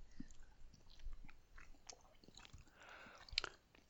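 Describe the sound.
Quiet chewing of boiled potato with herring brine: a run of soft, wet crunches and mouth clicks with a sharper click near the end, with no talk.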